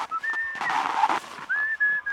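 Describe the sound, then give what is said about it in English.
A man whistles a tune while feeding his sled dogs during a race in the morning: clear, sustained high notes with a quick glide between phrases and a short breathy burst in the middle. “He whistled a tune while he fed his dogs.”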